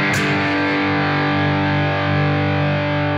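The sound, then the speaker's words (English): Electric guitar played through an overdrive pedal with its input knob turned almost to maximum: one loud, heavily distorted chord struck and left to ring for about three seconds, rich and buzzy with a noisy hiss on top. “So the very end of the input knob has a bunch of noise on it. So we'll go almost to the very top of the input knob.”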